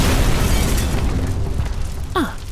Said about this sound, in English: Come on, squad. We've only got 10 minutes before the bomb explodes.